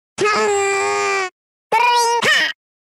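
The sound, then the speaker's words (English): Two cartoonish, high-pitched character voice calls from a Smash Bros video game: the first a steady, sustained cry, the second shorter and warbling upward with a brief break near its end, both loud against silence. “it's a couple of Yoshi's sound effects from Smash Bros”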